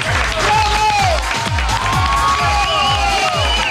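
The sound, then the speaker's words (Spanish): A crowd cheers and applauds loudly and continuously, with shouting voices mixed in over a regular, repeating low thump. “Es que te tengo que aplaudir. ¡Bravo!”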